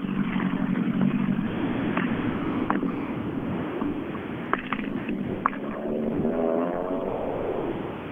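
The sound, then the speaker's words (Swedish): Rally car engines rumble low and steady as the last of the dirty rally cars roll out toward the stage, with wind noise running throughout and a few brief sharp knocks. “Mm, och vi är på väg ut, de sista är på väg att rulla ut nu.”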